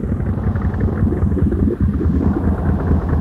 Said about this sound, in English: Better take it slow, Skipper. Okay, I'll throttle her down.